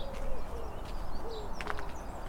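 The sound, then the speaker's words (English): Soft crooning of a wood pigeon outdoors beside a canal in early spring, low mellow cooing notes that stay faint over a steady background hiss. “There's a lovely wood pigeon crooning.”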